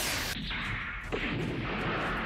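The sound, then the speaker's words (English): Video-game turrets fire several shots into an armoured assault mech, producing a dense, loud, continuous roar of gunfire with a few sharper booming hits standing out. “All the turrets shoot off several pot shots into the assault mech.”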